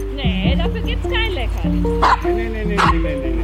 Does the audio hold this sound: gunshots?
no